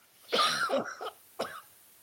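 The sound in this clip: Coughing from someone bothered by allergies: a rough, clustered burst of coughs followed by one short, sharp cough, fairly faint, with no talk.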